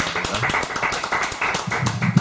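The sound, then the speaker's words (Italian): Audience applause at a presentation, a dense, even patter of many hands clapping without a break from start to finish. “quindi un applauso anche a lei”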